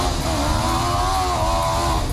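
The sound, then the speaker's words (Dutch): Souped-up racing lawnmowers race through mud, their small engines giving a loud, steady, buzzing whine with a tonal edge for about two seconds, with no talk over it. “Inclusief race met opgevoerde grasmaaiers in de modder, horen we bij Hart van Nederland.”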